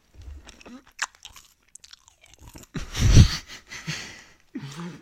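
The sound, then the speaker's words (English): Crunching and chewing of Skittles candy, irregular crisp bites and mouth sounds separated by short pauses, with a louder burst of crunching near the middle. “I want ASMR, so I had to crunch. Oh, you're right. Hold on. Before we end the ASMR segment. Okay. Let me give them some of mine, my Skittles.”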